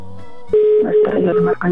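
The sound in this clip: A phone being dialed again after a call went straight to voicemail: a single steady tone holds for about a second while people talk over it.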